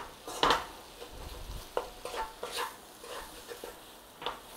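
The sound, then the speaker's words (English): Flour being stirred and cooked out in a pan: irregular scrapes and knocks of a utensil against the pan, with one sharper clatter near the start, a few softer strokes after it, and a faint sizzle beneath. “a couple of tablespoons of flour. Again, just cook out the rawness of that flour.”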